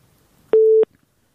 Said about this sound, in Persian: متاسفانه تماس ما قطع شد با شنونده عزیز.